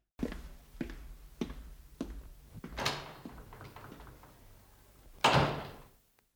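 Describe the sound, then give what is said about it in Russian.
A desk drawer being opened: a series of light, evenly spaced knocks, then a sliding scrape and rattling, ending in one heavy, loud thud that quickly dies away. “Мистер Паркер Пайн достал из ящика своего стола новую папку.”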